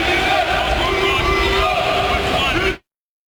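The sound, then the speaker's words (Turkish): Crowd chanting from about fifty football fans cheering on the Turkish national team at its training session in Los Angeles; a dense, loud, sustained roar of many voices that cuts off abruptly at the end. “İdmanı izleyen yaklaşık 50 taraftar yaptıkları tezahüratlarla milli futbolculara desteğini gösterdi.”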